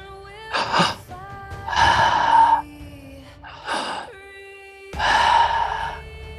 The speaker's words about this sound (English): Big deep breaths.